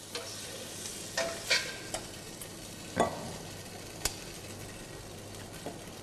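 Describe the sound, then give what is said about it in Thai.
Shrimp fry in a pan with a continuous sizzle as a utensil stirs them. A few scraping knocks against the pan rise above the steady hiss. “เมื่อกุ้งสุกได้ที่ทุกอย่างเข้ากันดีเราจะตักขึ้นพักไว้ก่อนนะฮะ”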